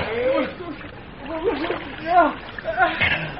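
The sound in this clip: A man falls into water with a splash, amid alarmed shouting and sloshing water, all heard through a narrow, muffled sound.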